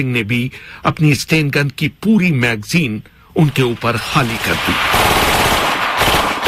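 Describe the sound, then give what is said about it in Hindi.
A Sten gun empties a full magazine as a loud, dense, sustained burst of automatic fire in the latter part, after a stretch of raised voices. “Gate के दूसरी तरफ तैनात सतवंत सिंह ने भी अपनी Sten gun की पूरी magazine उनके ऊपर खाली कर दी।”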